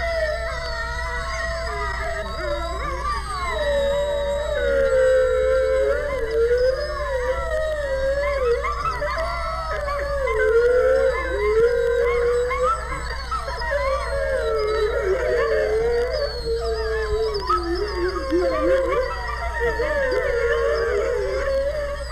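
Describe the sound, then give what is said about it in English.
Wolves, coyotes and wild dogs howl together in a canyon, a dense, continuous chorus of overlapping wavering howls and yips that rise and fall in pitch for the whole stretch. “Wolves, coyotes, wild dogs, all joined together in a wild chorus that sounds like this.”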